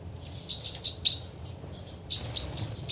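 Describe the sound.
Birds chirping, with a quick run of many high, thin tweets and chitters that comes in uneven bursts over a steady low rumble.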